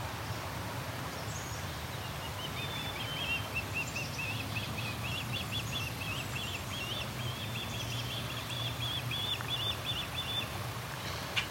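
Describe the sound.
A bird calling over and over from a tall dead tree near a nest, a faint, rapid series of high, chattering notes over steady background noise.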